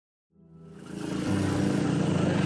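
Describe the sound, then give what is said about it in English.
Tuk-tuk ride in a Southeast Asian red light district: after a moment of silence, a small engine starts up and builds to a loud, steady, rapidly pulsing putter. “I'm riding in a tuk-tuk in the red light district here in Southeast Asia.”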